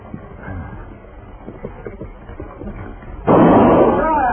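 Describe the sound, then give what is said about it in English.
A single loud gunshot is fired into the air on a trail beside a dry lake, bursting in sharply after a stretch of quieter voices and ringing on to the end. “If I fire again, Morgan, it won't be in the air.”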